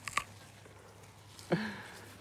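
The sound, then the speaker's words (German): A bite into a juicy cider pear with slightly fuzzy skin: two short, faint, crisp crunches about a second and a half apart, with no talk over them. “Das ist eine Mostbirne. Also die hat so ein bisschen pelziges. Also beiß mal rein.”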